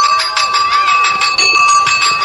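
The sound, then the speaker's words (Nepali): A school bell rings continuously with rapid, even strikes, giving a bright, loud, metallic tone that fills the whole clip. “Sir, घण्टी लाग्यो, अब जाउँ है कक्षातिर?”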